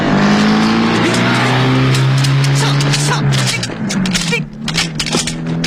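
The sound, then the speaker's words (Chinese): A car engine roars as the vehicle speeds off during a getaway chase, with tires squealing. A loud, steady droning tone drops in pitch partway through before the sound grows rougher and more broken. “金福他们急忙开车逃走，李都督的手下就在后面紧追不舍。”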